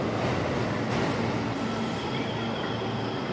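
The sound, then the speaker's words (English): Subway trains pull into a station at rush hour, a quiet, steady low rumble of rolling wheels with a faint sustained whine above it, unbroken from start to end. “now all the trains are coming. Yeah. What? Is each one individual? This is like rush hour.”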